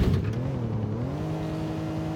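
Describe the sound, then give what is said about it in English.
A police car engine drones in the video game GTA IV, its low harmonics rising slightly early on and then holding at a steady pitch. The engine is moderately loud and is heard alone, with no voices. “That's a cop car.”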